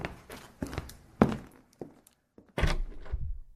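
Footsteps and dull thuds as a person leaves through the door of a house: several soft, separate thumps in an uneven rhythm, then a longer and louder burst of movement near the end. No one speaks.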